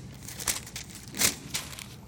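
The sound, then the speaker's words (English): Bible pages being flipped over to a chapter in 1 Timothy, heard as a few soft papery rustles and swishes. The strongest sweep comes around the middle, and the page sounds play faint and alone. “flip over a little bit to 1 Timothy chapter 3. I got a month worth of preaching to catch up on. 1 Timothy chapter 3.”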